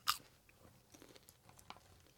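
Lightly spicy buffalo-flavored popcorn being eaten: one crisp crunch at the start, then faint, soft chewing noises, all very quiet.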